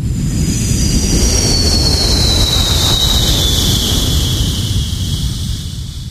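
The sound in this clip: A voice imitating jet aircraft noise at an Air Force base: a loud, broad rushing roar topped by a thin, high whine that slowly drops in pitch, easing off slightly at the end.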